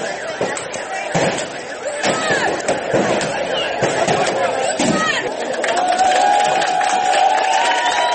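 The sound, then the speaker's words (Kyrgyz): Loud crowd noise at a protest rally outside the Committee Against Torture office in Grozny, with dense shouting and chatter and repeated sharp bangs and knocks throughout. “А бул көрүнүштүн баарын чогулгандар кубаттап турушту.”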